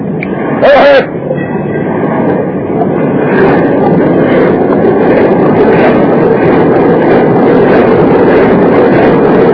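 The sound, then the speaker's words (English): A ship's engines straining as the vessel rams, backs and butts through ice, a loud, steady low rumble that continues unbroken for several seconds. “The next 3 hours, we nearly tore the engines off their bed plates and the smoking thrust block off its foundation while the Jeanette rammed, squeezed, backed, and butted her way through the ice.”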